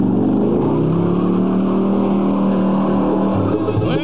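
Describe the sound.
A car engine revs as the driver hits the gas, producing a loud, continuous low roar that holds steady throughout.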